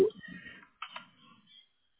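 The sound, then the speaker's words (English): Keys click on a computer keyboard as an email address is typed. The keystrokes are quiet, irregular and come in a few scattered bursts with short pauses between them. “I thought it might remember it when I started typing it, and it did.”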